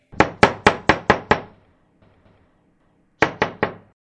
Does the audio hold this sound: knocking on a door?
yes